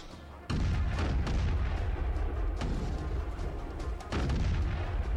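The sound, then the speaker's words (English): Gunfire from a ship's gun in a monster movie battle against a giant shark: a heavy boom breaks in, then sustained deep rumbling punctuated by a few sharp blasts. “the gun's firing forwards.”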